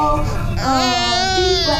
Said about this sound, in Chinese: 小宝贝最乖了，不哭了。